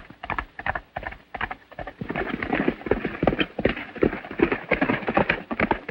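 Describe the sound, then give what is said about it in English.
A horse gallops through a grove of trees, its hoofbeats forming a fast, steady run of many thudding clip-clops that grows denser after the first couple of seconds. “Outside, Ruby gallops through a grove of trees.”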